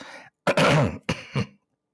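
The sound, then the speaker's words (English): A person clears their throat in a few harsh, gravelly bursts, a faint rasp first and then three louder rough pushes, each separated by a brief gap and followed by silence. “let me clear my throat.”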